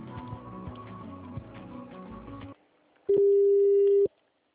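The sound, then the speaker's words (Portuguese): A telephone tone sounds while a customer-service call is being transferred to an attendant: one steady, loud, mid-pitched tone lasting about a second, after a stretch of fainter, layered sound. “Estamos transferindo sua ligação para uma de nossas atendentes.”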